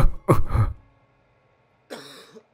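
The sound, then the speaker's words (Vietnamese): An old man coughing: a few harsh, throaty coughs in a quick burst, then a pause, then one more rough cough near the end. “Lão Kha ho lên một tràng dài, hơi thở khò khè như kéo nhị, như người hen suyễn.”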